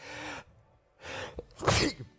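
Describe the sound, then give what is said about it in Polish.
A single human sneeze, a sharp breathy burst that comes after quieter breathy intakes, fairly soft overall. “chyba kichanie mnie bierze. Ojej, psik!”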